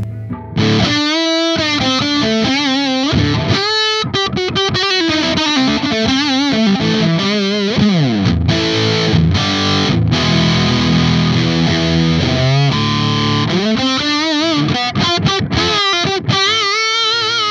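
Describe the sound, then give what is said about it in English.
Fuzz pedal on an electric guitar running into the clean channel of a Friedman amp, giving loud, thick, saturated notes and chords that sustain continuously with no gaps and no talking. “it sounds great if you go to the clean tone on the Friedman, which is a beautiful clean tone, and then you put that thing in front of it, wow.”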